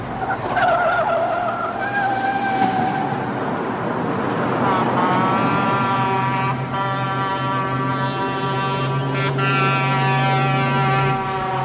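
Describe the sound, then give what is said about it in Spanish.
Tires screech as a car swerves sharply to the right: a sustained, high-pitched squeal with ringing tones rides over a dense roar and runs unbroken through the whole stretch. “Telma hace un rápido viraje a la derecha.”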